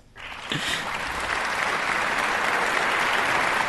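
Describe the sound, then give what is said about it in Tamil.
Recorded applause sound effect played for a caller, rising quickly from near silence into loud, continuous clapping from a large crowd that holds steady. “ஆனால் வைகரைன்னு ஒரு வார்த்தை போட்டிங்க பாருங்க, சூப்பருங்க. அதுக்கு உங்களுக்கு ஒரு கிளாப் போடுறேருங்க, ஒரே நிமிஷம்.”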